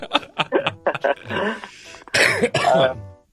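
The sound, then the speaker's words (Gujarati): Coughing from someone with a cough that has lasted about two weeks: a few rough, throaty bursts with throat clearing, mixed in with speech. “છેલ્લા લગભગ 15 દિવસ થી ખાંસી નથી જઈ રહી યાર, મને શું કરું?”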